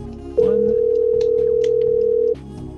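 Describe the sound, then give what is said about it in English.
A telephone ringing sounds as one steady, mid-pitched electronic tone that holds for about two seconds, then stops abruptly over a low background hum. “The phone's ringing. That's how you know it's live.”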